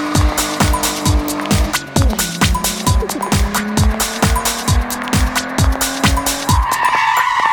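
Tires squeal as a car pulls away from a traffic light that has turned green. Many rapid rhythmic engine bursts pulse under steady, shrill squealing tones that carry on loudly throughout, with no talk.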